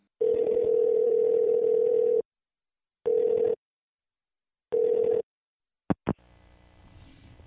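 Telephone line tones sound while a number is called: a long, steady tone, then two shorter beeps at the same pitch, then two quick blips before a faint open-line hiss.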